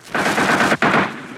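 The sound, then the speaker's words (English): Machine gun fire in battle from an infantry platoon on a hilltop pinning down enemy troops on a nearby hill: loud, dense rapid fire sustained over two long bursts separated by a brief break. “On top of the hill, the 1st platoon of K Company tries to pin down the enemy on a nearby hill. And at the same time, the platoon leader tries to shout over the din of machine guns to tell K Company”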